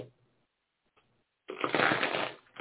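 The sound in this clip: Tarot cards being shuffled and handled: after near silence, a single dense rustling flutter lasts about a second, followed by a brief softer flick of cards.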